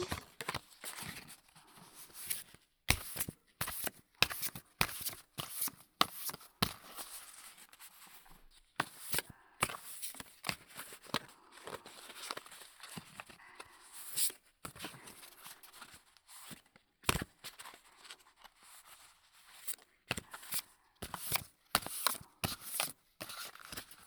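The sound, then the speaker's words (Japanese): Playing cards are shuffled in various ways, giving many crisp, papery bursts of riffling, snapping and fluttering. The bursts are quiet and irregular, with short pauses between them. “カードを扱ってるとさ、ある程度いろいろなシャッフルはできるんだよね。”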